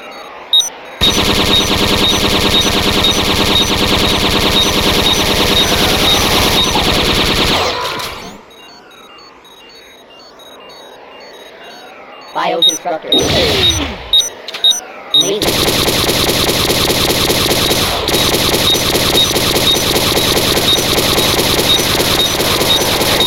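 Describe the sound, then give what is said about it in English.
An automatic bolt gun fires in a video game as loud, rapid, sustained fire. A long continuous burst gives way to a quieter lull with a few short bursts, then a second long, unbroken stretch of fire. “Automatic bolt gun. 7 feet. Go on then, get closer.”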